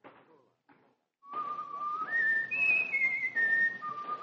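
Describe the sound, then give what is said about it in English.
A person whistles a clear tune in long, held notes that step up in pitch and then come back down. A couple of brief soft sounds come before it. “Hear the stranger whistling.”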